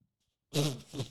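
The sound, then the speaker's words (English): A person lets out a short, low, gurgling burp after a moment of silence. It runs about half a second, dips briefly and then resumes, ending with a sharp little click. “Sorry. That was a burp. That was a fart burp. I should have just let it ride.”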